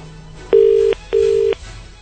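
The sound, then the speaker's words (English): Telephone ringing on a call to a bakery: two steady, buzzing ring tones, each about half a second long with a short gap between them, loud over faint line hiss. “I think that's the right number. Okay, we're dialing.”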